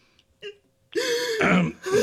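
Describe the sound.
A person crying, with a short whimper followed by a long, wavering, voiced sob that rises and breaks near the end, loud and heard without other talk.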